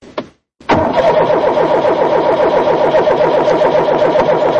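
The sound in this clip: A car engine with a fuel fault that makes it sputter and stall gives a short crank, falls briefly silent, then catches and runs with a loud, steady, rhythmically pulsing idle.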